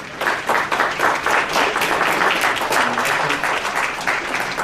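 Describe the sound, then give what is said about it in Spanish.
Dense, steady applause from an audience welcoming a lecturer at a psychology conference, many hands clapping at once in a continuous even wash of sound for several seconds. “Lo recibimos con un caluroso aplauso.”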